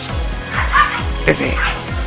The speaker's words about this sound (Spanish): Ahí tus perros.